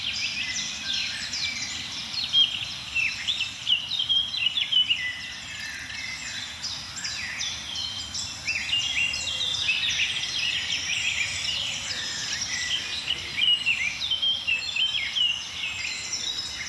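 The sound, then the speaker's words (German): Eurasian blackcap warblers singing in a dense, high-pitched chorus of chirps, trills and twitters over a continuous low rustling background, moderately loud and steady throughout without any talking. “Die ein oder andere Grasmücke ist auch dabei, Mönchsgrasmücken vor allem jetzt.”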